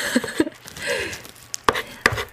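The back of a kitchen knife scrapes the thin membrane off cod roe sideways across a cutting board, giving a few sharp taps and knocks with soft brushing scrapes between them and no talk over it.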